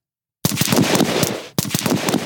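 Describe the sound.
Gunfire during weapons training: loud, rapid automatic bursts with dense, cracking reports, broken by one brief pause before the firing resumes.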